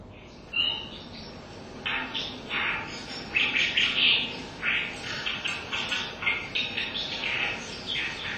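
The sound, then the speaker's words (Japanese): Brown Dipper calls: busy, high-pitched chirping notes, repeated rapidly in bunched bursts after a quiet start, with faint background noise beneath. “この賑やかな、細かな声はカワガラスの鳴き声です。”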